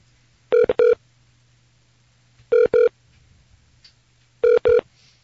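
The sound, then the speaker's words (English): Telephone keypad tones as a number is dialed: six short, loud beeps in three evenly spaced pairs over a faint, steady low hum. “I was just dialing the number.”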